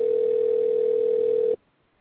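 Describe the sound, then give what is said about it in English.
A telephone tone sounds on an outgoing call: a single steady mid-pitched tone holds for about a second and a half, then cuts off abruptly into near silence. “Ooh, it's dialing.”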